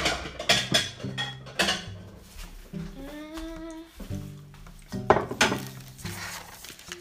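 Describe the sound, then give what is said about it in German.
Quark and sour cream being mixed in a bowl: irregular clinks, knocks and scrapes of a utensil against the bowl, with a brief squeaky tonal whine partway through. “Ich mische jetzt erstmal den Quark mit dem Schmand.”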